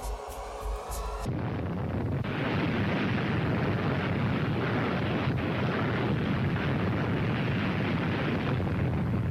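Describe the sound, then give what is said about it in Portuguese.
The Soviet Tsar Bomba thermonuclear bomb detonates. After a short opening sound, a sudden, massive roar takes over and continues as a dense, steady, rumbling wall of noise to the end. “Em 61, os soviéticos detonam a maior bomba da história, 58 milhões de toneladas”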